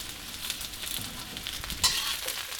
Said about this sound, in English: And now been about 30 seconds, I add all the Brussels sprouts.